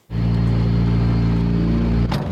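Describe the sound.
Loud, steady engine drone of a rally car on a rough, broken asphalt test track. It starts abruptly and holds an even pitch, with a brief dip near the end.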